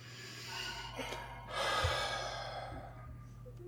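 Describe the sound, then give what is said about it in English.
A deep breath drawn in through the nose and let out through the mouth, heard as a soft, steady airy hiss that swells midway, with a faint low hum beneath. “Close your eyes and take a big breath in through your nose and out through your mouth.”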